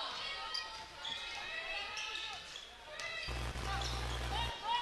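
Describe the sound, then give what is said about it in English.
Basketball dribbling on a court during a women's game, with a few faint bounces under a steady crowd murmur and voices. “Bostic picks up her dribble, tries to go inside”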